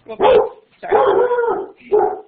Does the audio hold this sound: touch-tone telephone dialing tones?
no